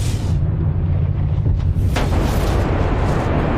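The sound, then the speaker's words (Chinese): A deep explosive boom, a sound effect for the Big Bang as an energy ball bursts: a loud, sustained low rumble with a sharp crackling burst near the middle. “138亿年前，一个能量球爆发”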